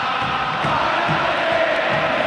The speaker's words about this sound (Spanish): Ah, cómo está la gente de River, ¿eh? ¡Oh! Es tremendo esto, ¿eh? Se escucha bien de fondo, ¿no?